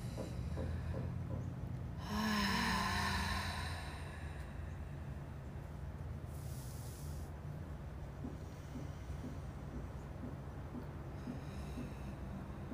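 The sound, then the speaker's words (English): A deep breath drawn in through the mouth: one airy inhale of roughly a second and a half over a steady low hum, followed by softer breathy noise. “Maybe even taking a deep breath in through your mouth.”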